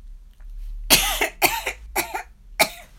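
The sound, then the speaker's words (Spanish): Four short, raspy coughs in an uneven but steady rhythm, each one loud and clear, with no talking around them. “Tosió un poco.”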